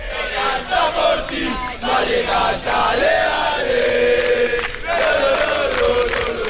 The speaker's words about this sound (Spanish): Pero sigue animando la afición del Rayo Vallecano.